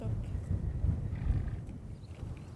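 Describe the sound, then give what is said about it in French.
Przewalski's horses galloping across open ground in a small group, heard as a steady, muffled low rumble of thudding hooves without distinct beats and with no voices. “ils arrivent en plein galop, enfin, bon galop.”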